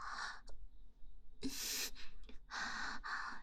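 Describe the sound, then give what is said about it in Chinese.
Rapid breathing from a person, a series of quick, breathy puffs of air with short gaps between them, fairly soft and without any speech. “呼吸这么急促啊”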